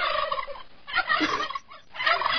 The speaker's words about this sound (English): These turkeys are getting it on, I tell you.